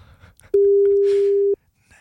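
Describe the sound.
A telephone tone signalling that all circuits are busy: a single steady, pure, mid-pitched beep about one second long, loud against near silence.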